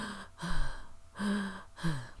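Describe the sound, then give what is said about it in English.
A man gasping and struggling to catch his breath, with four heavy, breathy, voiced gasps in a row separated by brief pauses. “"Oh, Abram," the man gasped, "there's been a great battle. The king of Sodom and four other kings went to war against their enemies." The man tried to catch his breath.”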